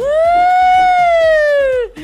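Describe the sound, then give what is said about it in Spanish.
A voice imitates an ambulance siren with one long sustained wailing tone that rises slightly, holds, and then slides down at the end, over a steady low beat. “Ay, Dios santo, le hice como ambulancia, ¿va?”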